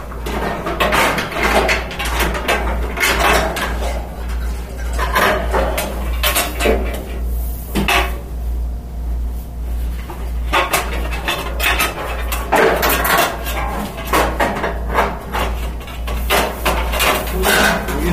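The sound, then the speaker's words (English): Metal parts clink and clatter as a control is fitted onto a grill's side burner during assembly, with many irregular knocks and rattles over a steady low hum and no talking. “No, I'm putting on the control for the side burner right now.”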